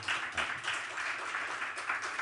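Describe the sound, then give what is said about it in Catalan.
A dense, steady wash of audience applause for a woman, quiet and even throughout without a clear start or end. “un aplaudiment per la Núria, sisplau.”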